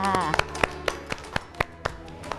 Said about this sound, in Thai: เด็กๆปรบมือให้ตัวเองด้วยค่ะ